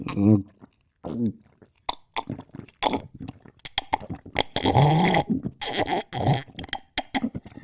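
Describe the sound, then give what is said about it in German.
Slurping and gulping while drinking a cup of cocoa made with Suchard Express powder: a string of wet, irregular bursts separated by short pauses, with a voice briefly heard at the start. “Und jetzt trinke ich einen schönen Kakao mit Pulver von Suchard Express.”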